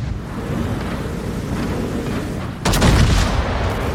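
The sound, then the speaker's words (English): A battleship firing its big guns in a naval warfare video game: a steady windy, surf-like wash, then one sudden heavy boom partway through that turns into a sustained, louder rumbling roar. “Introducing Battleship Wisconsin, the newest addition to World of Warships. Let's see her in action.”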